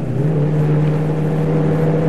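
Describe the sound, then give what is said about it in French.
A car engine droning as the car slows to about 80 km/h and downshifts on a road near Porticcio. The steady low hum steps up slightly in pitch early on, then holds evenly. “Je redescends la vitesse légèrement. 80, je rétrograde.”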